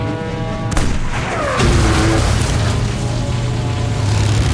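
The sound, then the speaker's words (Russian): A cannon fires a shell in a war film: a heavy boom is followed by a falling whistle and a second blast that leaves a sustained, rumbling roar. “Боец досылает снаряд, закрывает казённик. Лейтенант командует. Огонь!”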